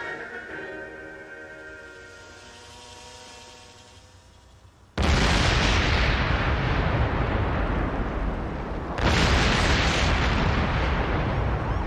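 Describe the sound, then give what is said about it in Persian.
Two massive bomb explosions in a city, each bursting in abruptly after a quieter tonal passage and roaring on as a loud, sustained rumble for several seconds. “شهر دوباره مورد حمله این بمب گذار مجهول الهویه قرار گرفته است و تنها امید ما گری گوست”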